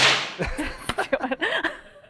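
A whip crack sound effect opens with a sharp, bright burst, followed by a few brief vocal sounds.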